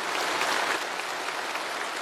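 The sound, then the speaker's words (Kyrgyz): Sustained applause at China's national science and technology award ceremony, many hands clapping in a steady, dense wash at moderate loudness with no pause. “Зуу кол чабуулардын коштоосунда Ши Цзиньпин зарыл сөз сүйлөдү.”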